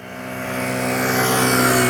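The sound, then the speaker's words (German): A car passes at 40 km/h during a driving-lesson swerve without braking. Its steady engine hum and road noise grow gradually louder with no clear braking. “Kann losgehen, ausweichen ohne abbremsen mit 40 km/h”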